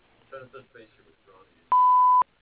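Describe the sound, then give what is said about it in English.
A voicemail beep: one steady, mid-pitched electronic tone lasting about half a second, loud and clean, after a few faint murmured syllables of speech. “Please leave a message at the beep, and I'll get back to you as soon as possible.”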